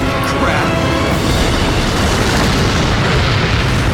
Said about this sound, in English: Everything in front of us is exploding